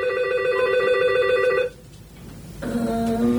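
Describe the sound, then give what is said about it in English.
An electronic telephone ring in two bursts separated by a short pause, the second burst lower in pitch. “We'll just have to wait for it to go to voicemail.”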